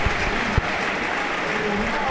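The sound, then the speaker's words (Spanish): A football crowd applauds back at a team celebrating with the trophy: steady, dense clapping with crowd voices mixed in and a couple of brief low thumps. “Manolo aplaudiendo a la gente. Le devuelven el aplauso.”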